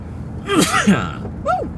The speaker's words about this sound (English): I'm slipping around here a little bit, and I'm also sneezing. Excuse me.